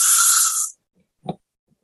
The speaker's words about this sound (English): Again, deep breath in.